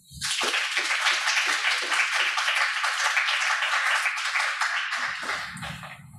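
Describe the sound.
Applause from an audience welcoming two speakers to a talk: brisk clapping starts abruptly, stays full and even for several seconds, then thins out and fades.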